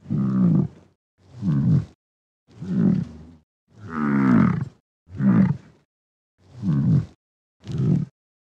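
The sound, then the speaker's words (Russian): European bison (wisent) grunting: seven deep, rough, drawn-out grunts at an even pace, each separated by a short silence. “Зубр.”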